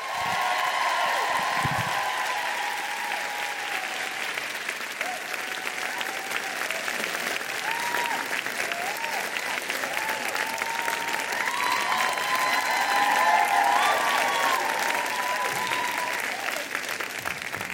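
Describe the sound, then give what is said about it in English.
An audience at a live feminist event applauds two guests as they are welcomed. The clapping is dense and continuous, holding at an even level for the whole stretch. “Put your hands together for Tatiana and Brotima.”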